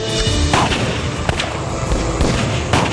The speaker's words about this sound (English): Nuke blast!